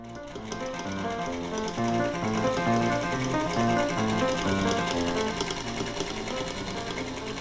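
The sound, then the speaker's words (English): A sewing machine stitching runs continuously for several seconds with a steady, fast mechanical whir and repetitive clatter, no talking. “any sewing on this kind of machine. So now you've got the same thread coming for the bottom inside stitch, and the top stitch is from the needle.”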